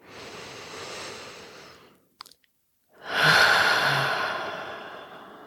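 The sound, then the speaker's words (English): Deep breathing during a guided meditation: one long, airy breath, a short quiet pause with a faint click, then a second, louder and fuller breath that slowly fades. No one speaks. “we're just going to take three big breaths, breathing in”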